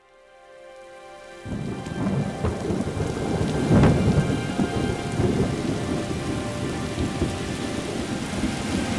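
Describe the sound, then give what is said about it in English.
Heavy rain pours down on a city street block in northwest Baltimore, a dense steady roar that starts abruptly and continues throughout, with a low rumble of thunder swelling briefly near the middle. “I haven't seen it rain this hard in a long time.”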